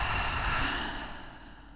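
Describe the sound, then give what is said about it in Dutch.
A deep breath during a guided breathing exercise: one long, airy rush of breath that slowly softens and fades. “Je kan even een paar keer wat dieper ademen. Diep in door de neus. En uit door de mond.”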